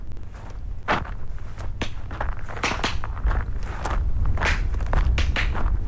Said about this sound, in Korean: 저 앞에 발걸음 소리가 들립니다.